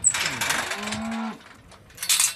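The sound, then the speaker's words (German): A cow moos on an organic farm in Swabia where the herd goes out to pasture daily: one drawn-out low moo over a faint mechanical rattle, then a short burst of noise at the end. “Die Kühe vom Biohof Speinle in Weißingen im Landkreis Dillingen dürfen jeden Tag auf die Weide.”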